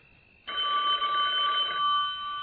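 A payphone rings in an old-time radio drama, one bright, sustained electronic ring that starts abruptly and tapers to a lower level at the end.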